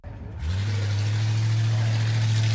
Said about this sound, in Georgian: ეს კლასიკური 1965 წელს გამოშვებული Ford Mustang-ი სინამდვილეში თავისთავად მართავს.